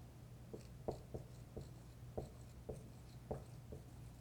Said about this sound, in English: I'm going to write Sabbath with a circle and one of those little slashes through it